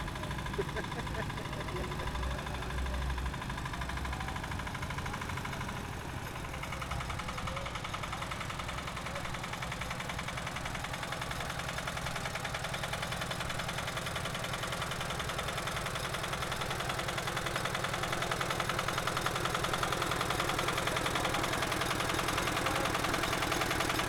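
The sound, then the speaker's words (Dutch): Engine of a scrap-metal helicopter vehicle driving at a metal scrap jam, a steady mid-pitched running drone that holds throughout and swells slightly toward the end, with people talking over it. “Helikopter die gaat nu een rondje rijden, is achteruit. Ik denk dat hij er helemaal achteruit kan. Oh, oké, okay, nou even twee gas geven.”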